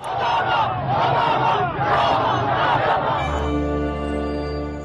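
Protesters chanting a slogan in unison during post-election unrest, a loud rhythmic crowd chant with repeated pulsing syllables that stops after about three seconds, when a steady sustained tone takes over.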